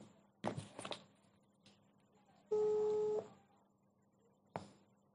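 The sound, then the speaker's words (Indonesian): An outgoing telephone call gives a single steady ringback beep lasting under a second, surrounded by faint clicks and brief handling noises on an otherwise quiet line. “gue akan nelfon dia sekarang”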